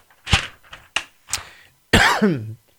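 Someone coughs after swallowing wrong, with a few sharp, separate coughs followed by a longer, strained, voiced throat-clearing sound that falls in pitch.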